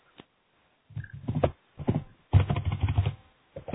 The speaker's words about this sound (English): Someone's typing very heavily. If you're not speaking, could you please mute your mic?